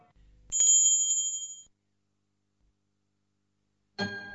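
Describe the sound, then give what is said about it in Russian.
A small bell rings once, a bright ding that lingers and fades over about a second. Silence follows before another sound begins. “Вдруг послышался звук колокольчика”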